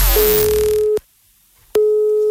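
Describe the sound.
Telephone ringing tone on an outgoing prank call posing as a social security office: a brief burst of noise gives way to a steady electronic tone. The tone cuts off for a short pause, then starts again, alone.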